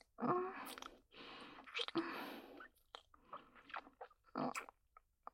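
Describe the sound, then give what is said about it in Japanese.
Someone eating a mushy, gooey food scraped together, with faint wet chewing and biting in several uneven bursts separated by short pauses. “全部集めて食べちゃうよ。”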